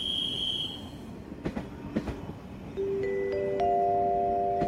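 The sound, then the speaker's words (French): A train departs Quimper railway station with a low, steady rumble and a few sharp clicks from the wheels. Sustained wheel squeals at several pitches then set in, and the sound grows louder toward the end. “Vous êtes en gare de Quimper. Notre départ est imminent.”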